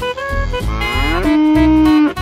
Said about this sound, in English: Cow.